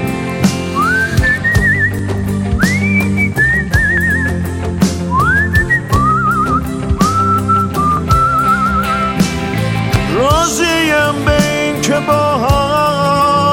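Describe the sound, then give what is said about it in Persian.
Whistling of an old song melody, one clear tone sliding and gliding between sustained notes in phrase after phrase, steady and fairly loud throughout. “یه آهنگ قدیمی که با سوت خوب میزدم من”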